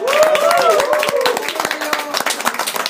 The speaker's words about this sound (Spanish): me gustaría, para mí, hacia ustedes, darles un aplauso por acompañarme el día de hoy en este podcast